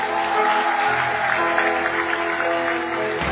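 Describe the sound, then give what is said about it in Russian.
Applause from the audience during a church service, a dense, continuous patter of many hands clapping at a steady level with no break. “Давайте подарим Миранде аплодисменты.”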